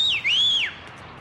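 A man sitting on a street bench wolf-whistles at a passing woman carrying shopping bags. The clear, high whistle dips, swoops back up, holds, then falls away, alone over faint background hiss.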